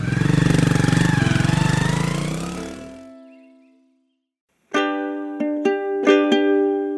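A vehicle engine pulls away slowly, its loud, low, even drone fading steadily over about three seconds. After a short silence, a few bright chime-like musical notes ring out.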